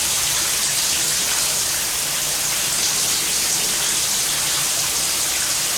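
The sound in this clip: Shower water runs as a steady, dense hiss of spray, loud and even from start to finish with no other sounds or voices.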